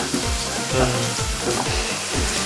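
Food frying in oil gives off a loud, steady sizzling hiss, with low, rhythmic scraping of stirring running through it.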